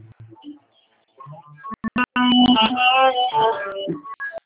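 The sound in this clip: Rock music heard over a telephone line, thin and narrow in tone: a few quiet, choppy fragments at first, then a louder, fuller stretch of sustained sung or melodic notes.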